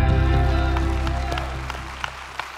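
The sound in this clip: Church audience applause welcomes a minister: scattered clapping over sustained music that fades out, thinning to a few separate claps at the end.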